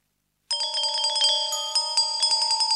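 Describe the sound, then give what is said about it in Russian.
Bright tinkling chime of a fairy ringing, a steady shimmer of high bell-like tones that starts abruptly after a short silence and continues with small rhythmic pulses, alone with no talk. “А почему она звенит? Феи так разговаривают.”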